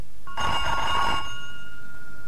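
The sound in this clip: A single trilling telephone ring, bright and tonal, lasting about a second, then fading to faint hiss.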